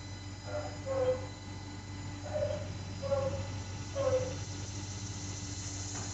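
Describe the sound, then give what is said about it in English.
An elderly dog barks a few times, faint and short, over a constant low hum and engine-like drone. “That's our dog Hobbs barking.”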